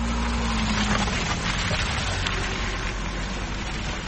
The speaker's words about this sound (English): That is the sound of vehicles slowly navigating the potholes that have become so painfully common in Zimbabwe's urban centers.